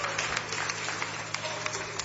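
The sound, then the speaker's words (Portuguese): Congregation clapping hands in praise during worship to Jesus: a dense, steady patter of many claps with no pause, fairly quiet, with a faint low hum underneath. “Palmas bem alegre, bem bonito para Jesus. Jesus merece o nosso melhor.”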